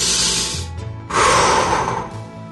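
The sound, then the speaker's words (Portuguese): A deep breath taken on cue as a calming exercise, made of two long, airy breaths with a hissing rush of air, the second louder and fuller than the first. “Então é hora de você respirar fundo”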